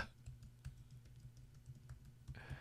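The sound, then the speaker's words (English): Faint clicking of computer keyboard keys, a loose run of light taps over a steady low hum, with no voices. “And I'm going to type this up here real quick.”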